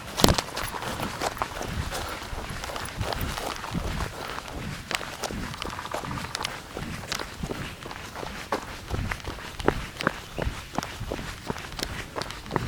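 Running footsteps through muddy puddles: many brisk, regular footfalls with a splashy, gritty texture that continue steadily throughout.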